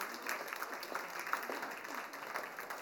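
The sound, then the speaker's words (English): Audience applause for participants at a talk on forgiveness, faint and fairly steady, a dense patter of clapping running throughout with no clear peaks. “if you lot would like to put all your bits of paper down there and take a Freddo, big round of applause for them”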